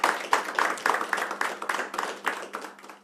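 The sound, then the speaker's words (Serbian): Hand clapping in a kafana tavern, welcoming a singer and her band: a fairly faint series of sharp, evenly spaced claps that carries on steadily without swelling. “Meni je izuzetno čast i zadovoljstvo što ćemo večeras po prvi put ugostiti, siguran sam, Balkansku kraljicu zajedno sa svojim bendom, koji ćemo počastiti naravno jednim velikim aplauzom.”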